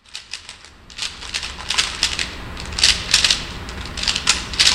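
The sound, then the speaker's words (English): A Rubik's Cube being turned: many quick, irregular clicks and rattles in fast bursts, growing denser and louder toward the end. “You hear that? That's the sound of a Rubik's Cube.”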